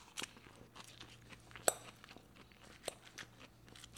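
Someone chews a salad of red bell pepper and basil with balsamic dressing. The crunching is faint, with a few sharp crunches standing out over softer, steady chewing.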